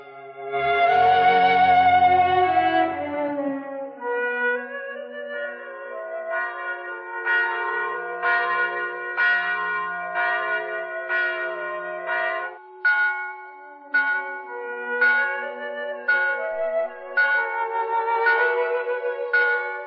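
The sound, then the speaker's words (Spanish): Church bells peal for a Corpus Christi feast at a village church, loud and alone: a sustained ringing chord gives way to many rhythmic, repeated strikes with bright, overlapping metallic tones. “Las campanas voltearon y repicaron largo tiempo.”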